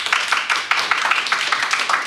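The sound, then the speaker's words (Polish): Audience applause after a lecture: many quick, crisp hand claps overlap in a dense, even patter that holds steady at a fairly loud level throughout. “To jeszcze raz moment oczywiście na brawa od państwa.”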